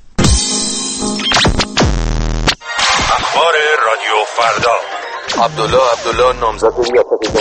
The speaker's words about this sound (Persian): پارازیت گوشاتون آزار میده؟